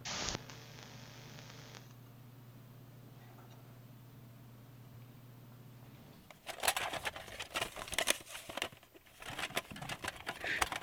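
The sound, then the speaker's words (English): Fumbling with a cassette tape in a Talk Boy recorder: a steady low electronic hum gives way to irregular plastic clicks, rattles and handling noises that clatter on in uneven bursts. “Fumbling around with the tape here. Give me a sec.”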